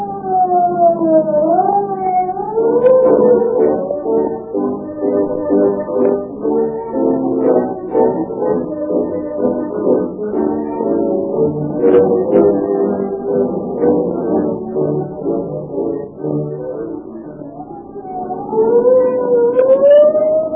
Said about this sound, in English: When you hear the scream of the siren and police cars go tearing past